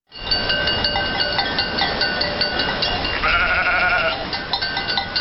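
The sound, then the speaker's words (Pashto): A flock of sheep and goats driven along by migrating nomads, with many overlapping bleats and clanking bells over a constant dense herd noise. “اوښان یې په لوښو بار د میږو وزو رمه یې تر مخ کړي”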